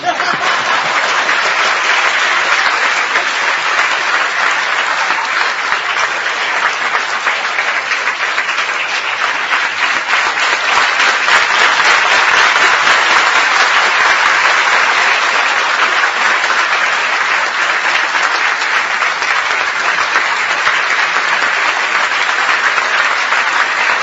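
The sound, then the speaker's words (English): Audience applause after a lecture at a devotional gathering, dense and steady clapping that stays loud and unbroken from start to finish. “See, you clap when I bark”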